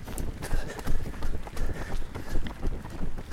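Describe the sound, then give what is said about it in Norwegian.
Running footsteps of runners along the Otra river: a quick, steady patter of footfalls over a continuous rushing background noise. “Vi springer jo langs Otra nå.”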